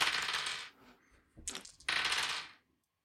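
Dice rolled during a board game clatter in three bursts: a long rattling roll, a brief clack, then another long, hard rattle that stops abruptly.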